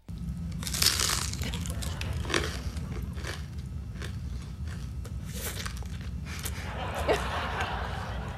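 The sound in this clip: Crunching and biting as someone eats food in an ASMR video, with sharp crisp bursts standing out over a steady low rustling background.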